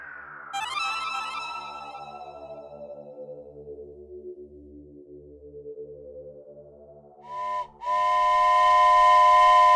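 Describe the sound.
A train whistle blows, its tone sliding down in pitch and fading into a low drone. After a pause comes a short blast, then a loud, steady harmonic whistle that holds to the end.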